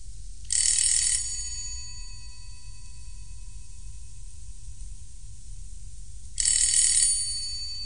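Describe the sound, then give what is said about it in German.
A doorbell rings in two short bursts separated by a long pause. Each is a bright, buzzing, high-pitched electric ring over a low, steady hum. “Lange reagierte niemand auf mein Klingeln.”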